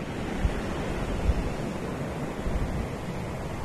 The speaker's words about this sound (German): Das sind die besonderen Pebbles, die in der Dominikanischen Republik rumliegen, die diesen einzigartigen Sound machen. Hört nochmal rein.